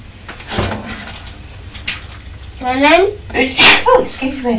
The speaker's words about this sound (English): What do you say when Mummy sneezes?